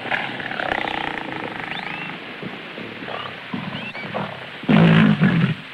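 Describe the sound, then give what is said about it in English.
A lioness in the jungle roaring: low, rumbling growls over a steady wild ambience, then a loud, deep roar near the end that drops back into a growl. “A lioness eyes him.”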